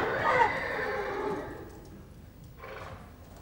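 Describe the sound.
A carriage horse neighs as it is grabbed and brought to a stop. A loud, rough whinny fades over about a second and a half, followed by a shorter, fainter burst.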